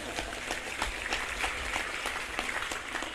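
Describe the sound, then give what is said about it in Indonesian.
Soft applause from listeners at an Islamic religious lecture: a quiet, rain-like patter of many claps blending into a continuous crackle with no clear individual beats. “tepuk tangan yang keras enggak apa-apa”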